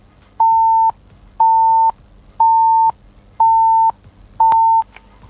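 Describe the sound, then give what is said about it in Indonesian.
A phone line gives the disconnect tone after a call is cut off: five identical steady beeps, each about half a second long, evenly spaced and loud at a fixed mid pitch. “Terputus sepertinya ya, terputus kayaknya.”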